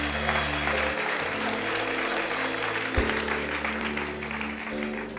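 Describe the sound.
Audience applause welcoming guests at an event celebrating a new building: dense, steady clapping that fills the whole clip at an even level.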